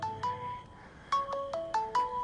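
A mobile phone ringtone sounds from a pocket, a melodic electronic tune of short bright notes in quick repeating phrases. It is fairly faint, with no voices.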